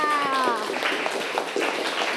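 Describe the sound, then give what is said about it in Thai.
Children in a class clap for themselves, a scattered patter of many small claps after a brief voice at the start, moderately loud and steady. “เด็กๆปรบมือให้กับตัวเองค่ะ”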